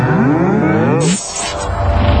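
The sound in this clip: A cow in a village moos once, a long, low, drawn-out call lasting about a second, followed by a short burst of hissing noise.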